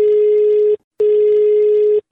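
Telephone tone as a call is placed: two long, steady, mid-pitched beeps, the second slightly longer, separated by a short gap and heard alone.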